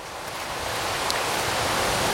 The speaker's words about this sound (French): C'est le bruit du vent dans les feuilles sèches, cramées, brunies.